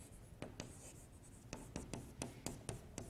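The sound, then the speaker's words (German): Someone writes on a board, making a quiet series of short, sharp taps and strokes in an irregular rhythm, with no voices. “Ja, dann schreibe ich das auf.”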